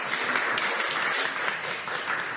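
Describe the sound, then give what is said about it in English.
Audience applause welcoming a speaker onto the stage at a library event, a dense, steady patter of many hands clapping at an even level throughout. “So I think we can give her a round of applause to get her on stage.”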